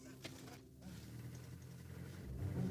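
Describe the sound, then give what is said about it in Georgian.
Low, steady engine rumble of an old Land Rover driving toward a national park, continuous throughout and growing somewhat louder toward the end. “ძველი ლენდროვერით ჩვენ ეროვნულ პარკში მივდივართ.”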